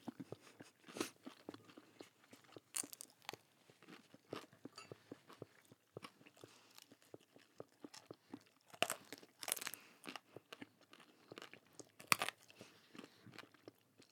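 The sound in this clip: Hot chicken wings, organic and coated in bear spray, being eaten: many sharp crunches, wet chewing and tearing of meat off the bone, quiet and irregular, with no talk.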